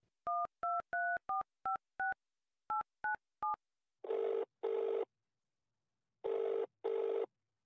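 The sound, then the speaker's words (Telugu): Touch-tone telephone dialing: a quick run of short, clean keypad beeps, then ringing that comes in two double bursts. No voices are heard. “Phone చేద్దాం.”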